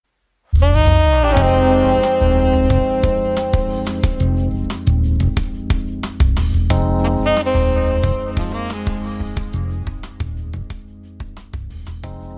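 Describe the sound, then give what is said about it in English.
Background music starts abruptly after a moment of silence and plays loudly and continuously: sustained tonal chords over a steady percussive beat, with no voices. “So you guys can hear the music going in the background.”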